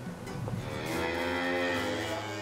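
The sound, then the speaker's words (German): Beef cattle on a family farm on Amrum bound for summer pasture by the sea give a single long, low moo that swells and holds steady to the end, with no talk over it. “Heute kommen die Rinder auf die Sommerweiden.”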